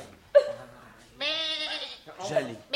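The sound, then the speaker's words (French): A goat bleats as it is brought in as the second accused at a trial: one wavering, tremulous bleat of moderate loudness, set among short bursts of speech-like sound. “Pauvre petite bête. Quelle jolie chèvre !”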